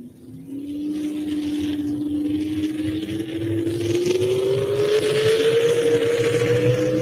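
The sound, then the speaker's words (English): A four-wheel-drive race vehicle launches off the line at a racing event. Its loud engine drones continuously while the pitch climbs steadily over several seconds, and no one talks. “Chad having some problems getting this thing off the line here. They say this four-wheel drive class is one of the hardest ones to pull in and get them launched.”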